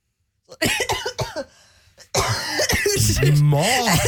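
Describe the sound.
Coughing and throat clearing from a person, with short harsh bursts and a rasping, voiced clearing of the throat, loud and close to the microphone.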